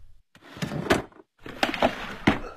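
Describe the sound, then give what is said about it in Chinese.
A drawer is opened and rummaged through to pull a small photo from its innermost part. Two stretches of wooden knocks and scraping clatter are separated by a short pause, with no voices. “从抽屉的最里层拿出一张小小的照片来”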